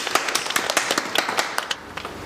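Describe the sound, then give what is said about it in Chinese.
A few people clap to celebrate their farm guesthouse breaking even, in a brief, uneven burst of distinct individual claps that trails off after about two seconds. “哈哈，我们为我们的成绩鼓掌。 到底什么时候鼓呢？”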